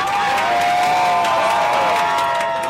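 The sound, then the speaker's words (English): Anti-regime activists crowded around a TV cheer as New Zealand scores against Iran, a loud, continuous roar of excited voices with steady horn-like tones running underneath. “Just down the street, a group of anti-regime activists crowded around a TV. They cheered when New Zealand scored the first goal.”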